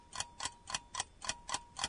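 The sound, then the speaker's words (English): A quiz countdown timer ticks on its own, seven crisp, evenly spaced ticks at a steady, brisk pace. “Here's your timer.”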